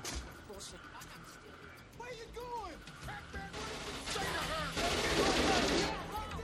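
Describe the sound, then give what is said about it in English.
Gunfire from a Steven Seagal action film, with bursts of shots mixed with voices and other film sound, growing louder and denser in the last few seconds. “masterful shooting there by Steven Seagal. The two-handed gangster look.”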